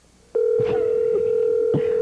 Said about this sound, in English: Ringing sounds the same, doesn't it?